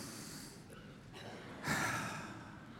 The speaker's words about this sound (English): I want you guys to take a deep breath.